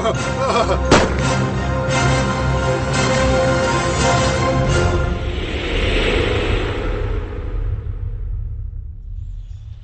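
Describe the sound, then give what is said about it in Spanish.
Gunfire from firearms during a fight, a dense stretch of rumbling blasts and sharp cracks that thins out and fades toward the end, with no talking. “Ustedes continúen disparando.”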